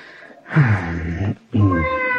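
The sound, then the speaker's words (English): A cat meows twice, two loud, drawn-out cries separated by a short pause, with no other sound around them. “Now, what happened to the cat? Oh, well, maybe it's gone wherever it is cats go.”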